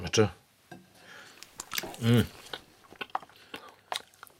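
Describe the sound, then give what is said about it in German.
Someone chews a bite of sausage, making soft crunching and clicking sounds in irregular bursts. A couple of short hummed vocal sounds break in between the chews. “Die Wurst schmeckt nach Pappe. Nach Pappe? Koste doch.”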